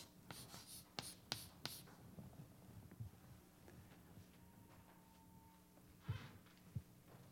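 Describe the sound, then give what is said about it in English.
Scratchy strokes of a line drawn by hand, faint and alone: a quick cluster of short scrapes early, a long quiet stretch, then a couple more strokes near the end. “Now, I'm going to draw a line here. And I'm going to call this line today.”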